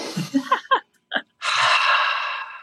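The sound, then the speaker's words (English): A deep breath drawn in, a long, loud, airy inhale lasting over a second, after a few brief vocal sounds. “With that said, I'm going to take a deep breath and answer your question.”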